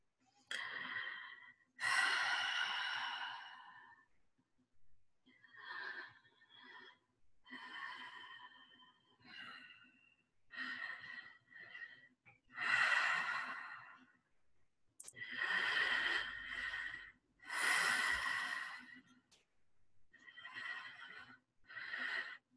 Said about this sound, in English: We're going to do a few minutes of deep, long breath through the mouth to just slough off the first layer.